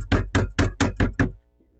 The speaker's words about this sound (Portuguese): Quem é que tá batendo aí? É o frio.